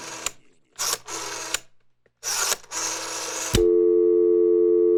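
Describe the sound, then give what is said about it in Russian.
A phone call being placed: a few short noisy bursts, then a steady, loud electronic ringing tone that holds unbroken to the end. “Давай позвоним Марии Петровне. Звони.”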